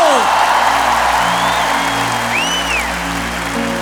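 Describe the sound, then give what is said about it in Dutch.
Concert audience cheering and applauding as a singer is introduced, a dense roar with a few rising whistles over a sustained low musical tone, steady throughout. “Geef maar een applaus.”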